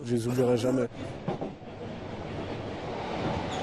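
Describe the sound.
A train rumbles along the rail line from the suburbs toward Paris, with a steady low roar and clatter from the rail car. A voice speaks briefly at the start before the train noise takes over.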